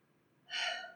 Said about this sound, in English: we do a breath like that, right? We breathe in and we just let it out.